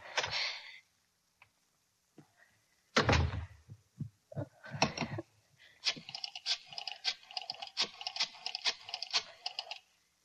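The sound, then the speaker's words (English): A key struggles in a door lock, making irregular bursts of metallic clicks, rattles and scrapes with a few heavier thunks, loud and close, with no talking. “Key. Where's my key? Darn this lock. Darn the lock.”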